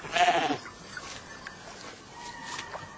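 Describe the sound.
A herd of goats or sheep bleats. One loud, raspy call comes at the start, then fainter scattered calls follow over a steady background hiss.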